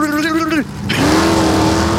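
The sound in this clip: A voice imitates a drag race car launching: a held, buzzy engine-like tone drops away, breaks off briefly, then returns sliding upward and holds as a sustained drone.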